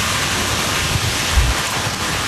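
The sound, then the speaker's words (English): Heavy rain and strong winds from a Category 1 hurricane with 75-mile-per-hour gusts pounding Hawaii's Big Island, heard as a loud, steady roaring wash of noise with a few dull low thumps partway through. “The Category 1 storm pounded Hawaii's Big Island with rain and 75-mile-per-hour winds”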